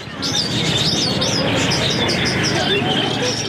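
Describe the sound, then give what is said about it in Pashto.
Birds chirping and cooing at a bird market in Kandahar, a dense, continuous mix of high whistling tweets and lower pigeon-like coos over a steady background hubbub. “د کندهار ښار په ځل کې د مرغانو دی بازار کې سلګونه کسان د مرغانو کاروبار کوي”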